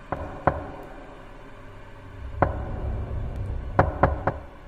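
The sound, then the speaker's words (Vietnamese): Knocking on a door at night: sharp raps spaced unevenly, two near the start, one midway and a quick group of three near the end, over a low steady background. “Và tiếng gõ cửa đều đều ở bên ngoài vẫn cứ dội lại.”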